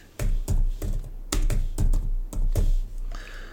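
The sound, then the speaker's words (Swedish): Keys clack on a computer keyboard as a card number is entered for an online Visa card payment: a quick, uneven run of many crisp keystrokes, fairly loud and with no talk. “Det enda jag ska uppge här är ju cardnumber så det ska jag knappa in då. Mitt kortnummer.”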